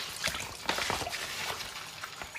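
Liquid poured to refill a container, heard as an uneven trickle with irregular splashy bursts, moderately loud and with no talking.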